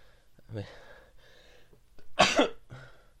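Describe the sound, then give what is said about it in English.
A single loud, sharp sneeze bursts out near the end, set among a few softer breaths and throaty sounds before and after it. “oh, I'm sneezing here.”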